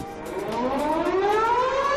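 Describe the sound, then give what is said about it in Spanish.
A World War II air-raid siren warns of bombing with a loud, continuous wail whose pitch climbs steadily throughout, heard alone. “Las sirenas sonaban en la Segunda Guerra Mundial para avisar de que había que meterse en los sótanos porque había peligro de que cayeran bombas.”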